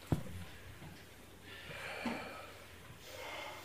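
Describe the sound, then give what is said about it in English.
A group of people breathing together in unison at a gathering in Toronto, heard as a short snort-like sound and then two soft, broad swells of collective breath, faint and airy with no speech. “Collective breath going on.”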